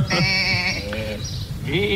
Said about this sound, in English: Those are sheep, aren't they? Yes, I thought they were.